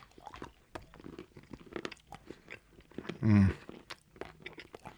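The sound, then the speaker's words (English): Chewing a whole Danska Citrus Vodka chocolate candy: many small, crisp crunches and mouth clicks follow each other irregularly. A brief, louder low murmur sounds midway through. “this is the Danska Citrus Vodka. And I think I'm just going to throw this whole fucker in my mouth. Plop.”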